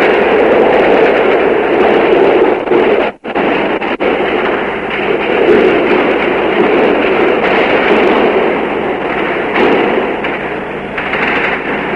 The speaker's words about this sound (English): All right, that's the firing. We're right in front of the presidential palace. Shots are being fired into the palace and outside.